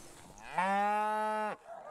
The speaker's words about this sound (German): Die Milchkühe ziehen sofort auf die neue Weide.